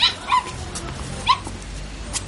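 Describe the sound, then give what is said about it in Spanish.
Dogs give a few short, high yips and whimpers, separated by pauses, over a steady background hiss. “¿Has visto los perros? Sí. Son los perros de la tita Ana.”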